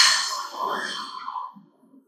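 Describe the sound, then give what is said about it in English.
A gentle exhale through an open mouth, taken as part of a Pilates breathing exercise. One long, soft, airy breath out, easing down in loudness and trailing away into faint stillness. “And then exhale gently, not forcefully, but gently, by going”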